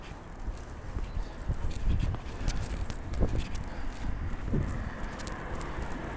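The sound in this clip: Footsteps of someone walking past, a few faint, irregular soft steps over a steady low background noise.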